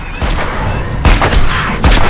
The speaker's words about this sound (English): Megan takes Andrew's gun and shoots Hannah. She continues firing as she stalks toward Hannah.